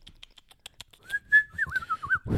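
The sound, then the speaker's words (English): A person whistles a short, wavering high tune, the pitch bobbing up and down for about a second. A string of faint clicks and taps comes before it, and a breathy low rush closes it. “I don't realize how much I blow out when I whistle.”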